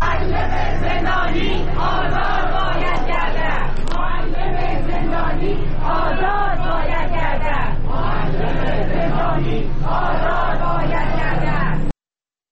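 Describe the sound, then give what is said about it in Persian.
Protesters in Mashhad chant slogans for the release of imprisoned colleagues: a loud crowd of voices repeating rhythmic shouted phrases in steady waves, continuing without pause until cutting off abruptly near the end. “این صدای معترضان در مشهد بود که برای آزادی همکاران زندانی خود شعار می دادند.”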